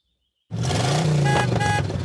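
A taxi engine starts abruptly after a short silence, then holds a steady, loud rumble with a low tone that keeps running to the end, with no voices.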